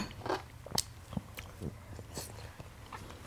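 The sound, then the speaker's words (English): Pistachios are cracked and chewed in several crisp, brittle crunches spread unevenly over a few seconds, all fairly faint. “I'm sorry, these pistachios are on fire.”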